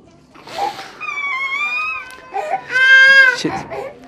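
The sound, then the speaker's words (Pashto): Grieving relatives of a man killed in a deadly attack cry and wail in mourning, with loud, high, drawn-out wavering wails alternating with breathy sobs and choked cries. “ویر، ژړا او انګولا.”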